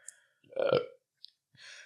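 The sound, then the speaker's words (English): A single gassy burp, a low, rough belch lasting about half a second, fairly loud against a quiet background, followed by a couple of faint short noises. “Why did you just burp? Gassy. I'm goddamn gassy.”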